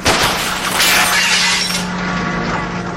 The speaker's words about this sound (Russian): через лобовое стекло стреляет по грузовику.